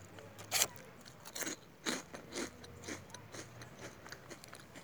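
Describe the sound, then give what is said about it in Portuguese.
Crunchy bites and chewing of a biscuit: a sharp, loud crunch early on, then a run of softer, irregular crackling chews, with no talking. “Que eu faço isso enquanto eu tô comendo biscoito.”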